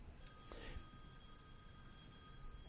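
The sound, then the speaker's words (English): A mobile phone rings during a church sermon, a faint electronic ringtone with thin, high sustained tones running throughout at low level. “Someone forgot, I think that's my phone that I forgot to turn off.”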